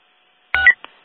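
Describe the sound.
Telephone keypad dialing tones: one steady touch-tone beep followed by a shorter, fainter beep, with no talk.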